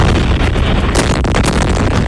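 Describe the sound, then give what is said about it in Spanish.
Explosions from US air strikes on Iran during the night: a dense, loud rumbling roar that holds steady throughout, with no separate blasts standing out. “Son los potentes ataques que ha lanzado Estados Unidos contra Irán por tercera noche consecutiva”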